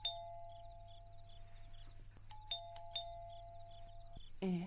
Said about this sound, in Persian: زنگ میزنن. کی هسته ای وقت شب؟